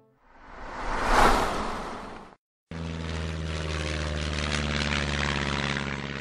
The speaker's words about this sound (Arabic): محركات الطائرة العتيقة تهدر منذرة بتحولها إلى 1000 قطعة.